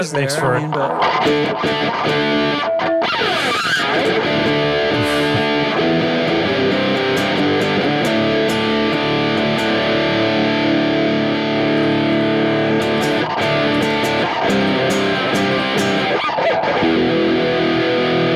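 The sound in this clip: An electric guitar played through a high-gain, JFET-based fuzz pedal: thick, saturated, buzzing chords that sustain loud and dense throughout, broken by a few sharp strums.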